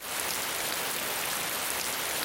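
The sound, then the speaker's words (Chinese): Steady rain falls as a dense, even hiss of countless drops, loud and unbroken, with no voices or other sounds. “这雨什么时候停啊？”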